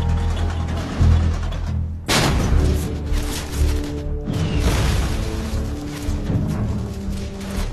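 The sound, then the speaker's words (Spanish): American artillery shells fall on German positions in the French countryside during the Second World War, with heavy crashing blasts and booms rising out of a continuous, dense rumble. “Con mapas detallados de la campiña francesa, los proyectiles estadounidenses comienzan enseguida a caer en las posiciones alemanas.”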